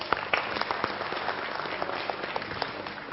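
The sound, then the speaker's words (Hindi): Audience applause at a stage event as a man is called up: dense, steady clapping with many overlapping claps, moderately loud throughout and without speech. “Ashok भाई जी के लिए भी जो है जोरदार तालियां हो जाए”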